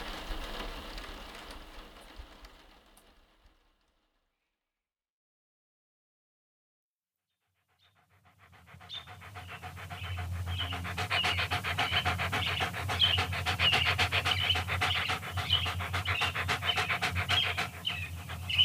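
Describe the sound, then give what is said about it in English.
A dog panting in quick, even breaths, loud and steady for about ten seconds after a few seconds of softer noise and a short silence. “That's my dog. He's okay.”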